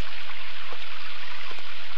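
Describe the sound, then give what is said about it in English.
Rain falling in a lush green jungle makes a dense, steady wash of water noise, loud and even throughout, with a couple of brief drip-like splashes standing out. “Outside this protective canopy, rain falls in a lush green jungle that was once barren desert.”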